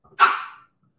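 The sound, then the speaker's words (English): A single loud dog bark rings out alone from the speaker's own dog, a sharp bark with a short trailing tail and nothing after it. “Sorry about my dog barking, by the way.”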